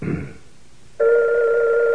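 A telephone rings with a loud, steady electronic tone that starts abruptly halfway through and holds to the end, after a short muffled sound at the start.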